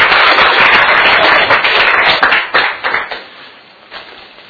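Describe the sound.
An audience claps to welcome a speaker at a gathering. Loud, dense applause carries on for a couple of seconds, then thins to a few scattered claps and dies away.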